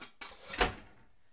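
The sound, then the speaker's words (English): A kitchen cupboard opened to take out a pan: a faint short scrape, then a single sharper knock that quickly fades. “I'll get this pan from the cupboard.”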